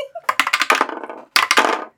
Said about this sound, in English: But let's roll some dice and talk about using them.